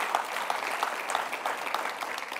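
An audience applauds in church, a dense, even patter of many hands clapping that holds steady and fairly quiet from start to finish.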